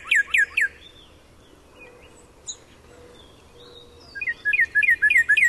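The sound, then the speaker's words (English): Northern cardinal song in Wisconsin: a quick run of three bright, slurred whistles, a pause with faint background, then a longer series of about six loud, clear repeated notes. “Oh, isn't that a wonderful song? That's the song of the Cardinal, of course, and it's one that you hear pretty much right now loud and clear across a good share of Wisconsin,”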